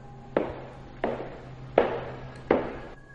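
Footsteps of wooden clogs in a corridor: four hard, knocking steps at an even, unhurried pace, each with a crisp attack and a quick decay, fairly faint.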